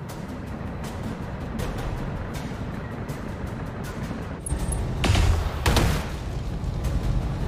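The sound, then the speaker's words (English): Arm-mounted medium lasers fired by a mech in a video game: two loud, sharp energy bursts in quick succession, standing out above a steady low rumbling background. “we're only going to fire the arm-mounted medium lasers. We're going to avoid too much heat here.”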